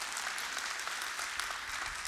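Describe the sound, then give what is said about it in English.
Congregation applauding during a church sermon, heard as a steady wash of clapping hands that stays even and continuous. “Your wrath comes from your love. Yeah, you can clap for that.”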